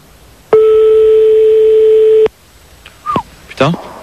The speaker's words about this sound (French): On est en train de faire le numéro de téléphone donc de Christine